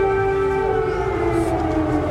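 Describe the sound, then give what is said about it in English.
Air raid sirens in Kyiv, Ukraine: a sustained, loud wailing tone with strong harmonics that holds steady while its pitch drifts slightly lower, with no voices. “Shortly after the president's announcement, air raid sirens rang out.”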